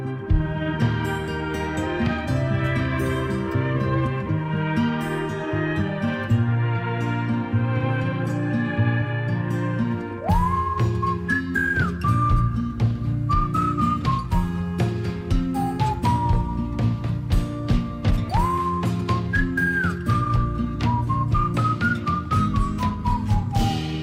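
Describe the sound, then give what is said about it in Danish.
Melodic human whistling of a bright summery tune within a song, entering partway through over full guitar, bass and percussion backing, with clear sustained notes that glide up and down in short phrases. “For eksempel sådan her, som han fløjter. Det kan man da kun gøre om sommeren.”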